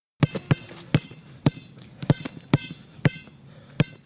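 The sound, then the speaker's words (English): Spalding basketball bouncing on a sidewalk, many sharp, punchy thuds in an uneven dribbling rhythm, some bounces landing in quick pairs, each hit loud and clear against a quiet background. “Spalding on sidewalk.”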